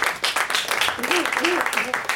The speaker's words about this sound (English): give them some applause for that.